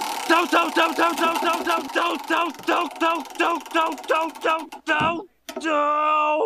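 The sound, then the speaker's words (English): A game-show spinning wheel clicks through a run of evenly spaced tonal ticks that gradually slow down, then falls quiet briefly before a sustained ringing tone. “let's get that wheel out. Alrighty, let's give it a spin to see which season we're in.”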